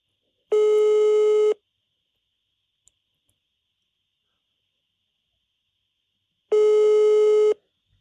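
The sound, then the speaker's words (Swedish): Telephone ringback tone while a call waits to be answered: two long, steady, buzzy tones, each about a second, separated by roughly five seconds of silence, with no voices. “vi väntar på Jim Riban kanske svarar.”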